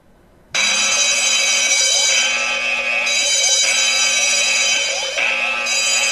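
Electronic 'explosion' alert tone from a Kensington Proximo key fob tracker app on an iPhone. It starts after a brief quiet moment, then sounds loud and continuous, with a repeating cycle of stepped, sweeping pitches and no voices.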